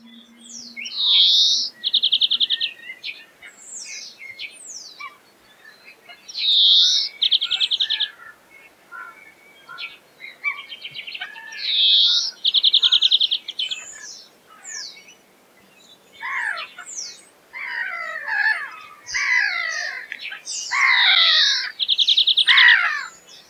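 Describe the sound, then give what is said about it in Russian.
A European greenfinch sings high, trilling phrases mixed with buzzy and twittering notes. The phrases repeat in bursts separated by short pauses, and the bird sings alone. “Зеленушка.”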